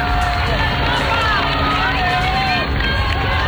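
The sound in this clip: A live street crowd in Madrid greets Pope Leo XIV as he passes in the Popemobile, a dense, unbroken roar of many voices with cheering, shouts and whistle-like cries.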